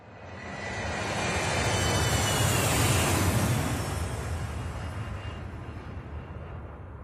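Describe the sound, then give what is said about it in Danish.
An airplane sound effect: a broad jet-like roar swells for a few seconds, peaks, then slowly fades away, with no voices over it. “nu skal vi et helt andet sted hen, og jeg foreslår, at vi tager en flyver”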